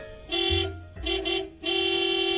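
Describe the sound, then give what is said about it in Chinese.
A car horn honking at the speaker's car, a classic vehicle: a few long, steady blasts with a bright buzzing tone and brief gaps between them. “你都听到噶啦，我俾人 boot 啦，我快啲洗翻架车出去先”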